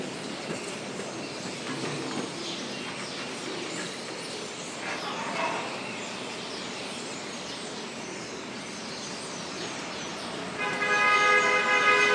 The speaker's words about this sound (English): there are like a ton of birds that nest. And early morning, here's what you hear.